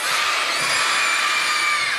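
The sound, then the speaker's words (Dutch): Children shout loudly together on cue after a count of three. The unison shout is bright and sustained, holding at a steady, high level for the whole moment. “Dan tel ik tot 3 en dan roepen jullie heel luid.”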